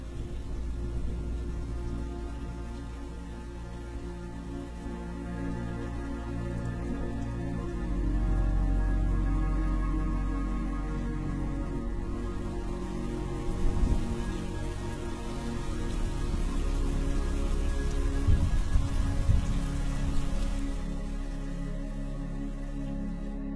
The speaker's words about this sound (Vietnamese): mọi thứ nhòa trong màn mưa